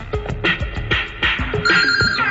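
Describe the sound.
A mobile phone rings with an electronic ringtone, a loud, bright, repeating melody of short tonal phrases that plays steadily with no speech.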